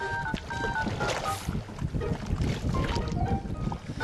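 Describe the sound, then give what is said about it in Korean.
Oars row a small boat on a lake at Copacabana as a fisherman heads out to his trout farm. A steady, dense wash of water and wind noise runs throughout, with faint tonal traces above it. “작은 조각배를 타고 노를 몇 번 젓자 안에 무언가가 잔뜩 든 그물이 나타납니다.”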